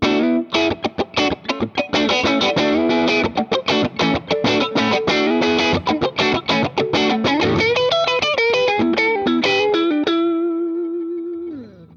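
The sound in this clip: An electric guitar played with both pickups mixed gives a hollow, scooped-mid distorted tone in a fast run of many picked notes and chords, ending on a sustained note that rings and fades away.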